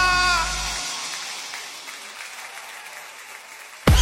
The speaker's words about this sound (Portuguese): Aplauda mais forte do que ele merece.